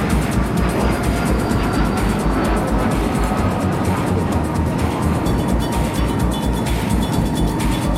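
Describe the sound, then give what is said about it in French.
An aircraft roars during take-off for a zero-gravity parabolic flight, its engine noise loud, dense and unbroken from start to finish. “Take-off.”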